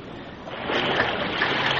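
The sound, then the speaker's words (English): A horse and rider leap from a cliff edge into a flooded river, a splash that surges in quickly and gives way to sustained rushing, churning water. “He and the Lone Ranger went under when they hit the water”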